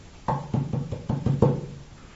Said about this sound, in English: With great surprise, there was a knocking at the door.